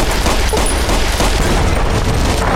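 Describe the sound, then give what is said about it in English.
Explosive weapon fire in the video game Fallout: New Vegas: a loud, dense barrage of overlapping blasts and shots that rumbles continuously without a clear break. “Okay, other weapon. Other weapon. That exploded. It hit, like, the top of the door frame.”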